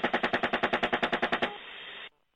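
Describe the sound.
Automatic gunfire strafes a disabled van in one loud, rapid, evenly spaced burst of many shots, followed by a short steady hiss that cuts off abruptly.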